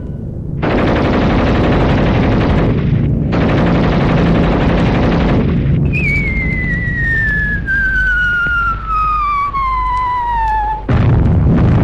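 Machine-gun fire aimed at fascist soldiers in a 1971 Second World War battle scene: long, loud, continuous bursts of rapid gunfire. A drawn-out whistle falls steadily in pitch over the later shots.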